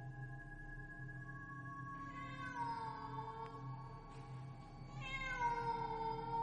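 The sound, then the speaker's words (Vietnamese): A black cat meows at night, giving two long, wavering, drawn-out cries, the first gliding downward in pitch, over a steady low background hum. “Ở bên kia có tiếng mèo kêu vang lên trong đêm ghê rợn.”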